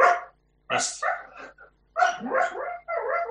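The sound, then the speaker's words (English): A female dog barks and yips in several sharp bursts of uneven length, separated by brief pauses. The barks are loud and alone, with no other sound between them. “That's the dog. Not sure what she's doing.”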